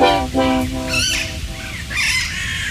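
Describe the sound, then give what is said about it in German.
Parakeets and crows squabble noisily, a loud, continuous tangle of harsh, overlapping squawks and screeches that runs without a break. “was ihr da gerade hört, hoffentlich hört ihr es, das sind die Sittiche und die Krähen. Die liefern sich hier gerade einen echten Krawallstreit”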